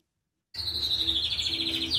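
A cockatoo chirping in an aviary: a run of rapid, high, bright chirps in a quick pulsing rhythm. It begins suddenly after half a second of silence and continues at a moderate level.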